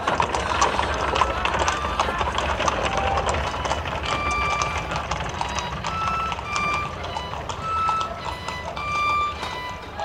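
Horse-drawn cab pulling away: a continuous clatter of hooves and rattling under a dense, noisy wash, with thin high tonal chirps threading through, steady in loudness.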